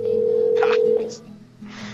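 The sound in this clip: A steady, mid-pitched telephone tone on a prank phone call holds for about a second and then cuts off. Brief bursts of noise and a faint voice sound around it.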